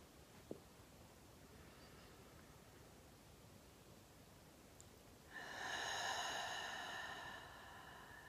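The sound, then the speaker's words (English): A single deep, slow breath taken during a guided breathing exercise, filling the belly and lungs. It comes as a soft, steady hiss lasting about two seconds, heard alone without any talk. “Now I invite you to take 3 deep breaths with me.”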